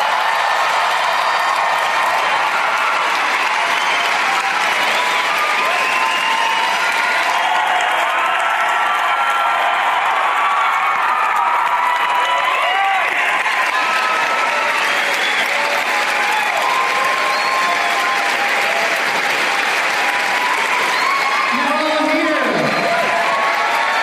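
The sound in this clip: Audience applause and cheering welcome a group of comedians, a dense, loud, unbroken wall of clapping with cheers mixed in that keeps going for the whole stretch.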